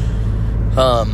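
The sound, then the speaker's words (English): Steady low road rumble fills the inside of a moving car, a dense constant drone with no breaks, and a voice briefly cuts in near the end. “This one, I apologize for the road noise. If there is a lot of road noise, I apologize.”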